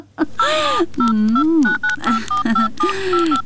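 Telephone dialing tones beep in a quick series as a call is placed, loud clipped tonal bursts mixed with other warbling sounds.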